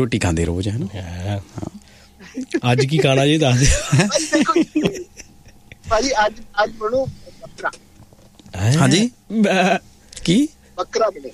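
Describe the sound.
A voice imitates a goat bleating several times, with wavering, quavering vocal tones mixed with talk and chuckling.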